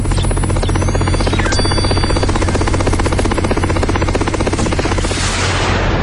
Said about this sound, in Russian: Вертолет, неподвижно висевший над замком, заложил вираж и опустился на крышу башни. Вертолет забирает добычу.